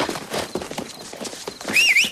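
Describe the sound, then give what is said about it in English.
Hoofbeats of a white horse walking forward: a few irregular clip-clop steps, moderately loud, with no voices. “a white horse walks forward and waits below her”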